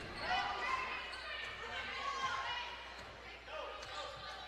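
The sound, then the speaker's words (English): A basketball dribbled up top during a Lady Rams game against Mountain Home, its repeated bounces thudding under a commentator's lively play-by-play voice. “Here's Payne with it, dribbling up at the top.”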